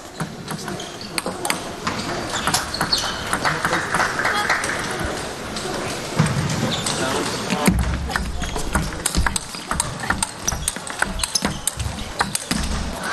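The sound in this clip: A table tennis ball pings rapidly off paddles and table during a topspin rally, sharp clicks following one another at a quick, steady pace. Commentators talk over the play throughout.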